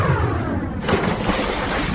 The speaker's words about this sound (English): Computer, swimming pool, simulation.